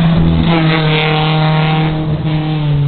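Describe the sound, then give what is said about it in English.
An original Toyota Celica cruising through a corner, its engine holding a steady, rich, droning hum at nearly constant pitch for the whole stretch. “As the Celica, the original Celica, cruises through the corner.”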